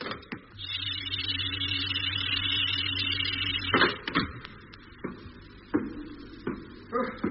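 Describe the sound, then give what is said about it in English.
A science-fiction spaceship hatch opens after cabin air pressure reaches maximum: a steady mechanical humming drone with a whirring overtone lasts about three seconds, then gives way to a burst of noise and several scattered clunks and knocks. “Air pressure maximum. You can remove your helmet now. Thanks, Doc. Hatch opening.”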